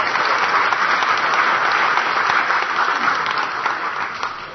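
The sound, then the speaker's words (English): Dense, loud applause from an audience at a door-prize event, steady clapping that fills the whole clip and tapers off slightly at the end. “How about another round of applause?”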